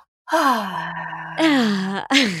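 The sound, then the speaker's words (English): A person takes a deep breath, voicing it as a few drawn-out sighs, each sliding downward in pitch, with short breaks between them. “Breathe deeply. So important. I'm doing it right now.”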